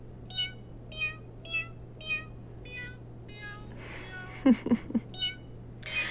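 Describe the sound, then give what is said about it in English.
Repeated meowing calls, short and evenly spaced in a steady rhythm, followed by a few sharp clicks and more meows over a low steady hum. “It all started with this guy, right? Meow, meow, meow, meow, meow, meow, meow,”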